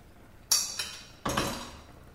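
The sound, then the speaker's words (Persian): Metal lid lifted off a cooking pot of stewing meat, three sharp clinks: a loud one, a softer one, then another loud clang that rings briefly. “حالا کاری که میکنم در قابلمه رو برمیدارم”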